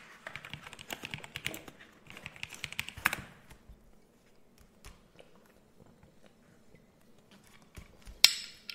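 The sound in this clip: Typing on a computer keyboard: irregular bursts of soft, quick key clicks with quieter pauses between them, ending on a few louder keystrokes.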